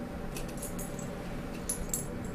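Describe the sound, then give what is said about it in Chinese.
A bunch of door keys jangles faintly, giving a few brief metallic clinks over a steady background hiss. “钥匙，就是一串门钥匙。”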